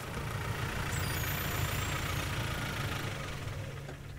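Car engine idling on a river dike in an Elbe riverside nature reserve, a steady low rumble with a constant mid-range hum that holds evenly throughout, with no voices.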